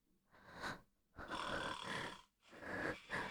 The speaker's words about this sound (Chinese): 这是妈妈的呼噜声，还是爸爸的呼噜声？哦，我就说嘛，妈妈的呼噜声不可能这么大